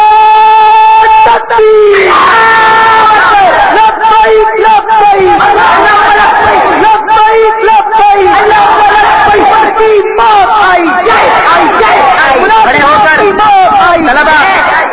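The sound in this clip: A crowd of madrasa students chants a slogan at a religious gathering: loud, massed voices shout together, sustained and dense throughout.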